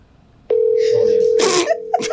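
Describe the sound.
A steady telephone line tone during a prank call: a single unbroken mid-pitched tone that starts abruptly and carries on under people talking.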